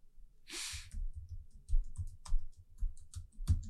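Typing on a computer keyboard while a web search is entered: a run of quick, irregular, soft key clicks. A breathy rush is heard near the start.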